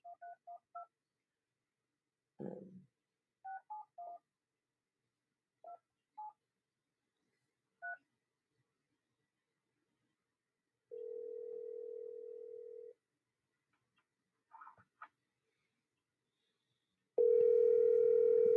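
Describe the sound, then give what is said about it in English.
Faint telephone dialing: many short keypad beeps in irregular bursts, then a steady tone for a couple of seconds, a few more beeps, and finally a louder continuous tone. “So I'm going to dial this person, and I apologize in advance if I've, you know, offended you in any way by doing that. Okay? So let me just dial.”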